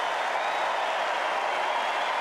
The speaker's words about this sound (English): As he gets up and leaves the court, a huge ovation for Novak Djokovic.